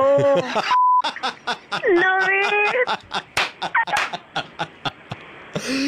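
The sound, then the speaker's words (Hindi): A censor bleep cuts across words on a radio phone call: one steady, mid-pitched electronic tone lasting under half a second, set among lively talk from a man and a woman. “ये जो beep beep हो रहा था ये beep हटा दूं मैं एक बार दिल्ली को सुना दूं?”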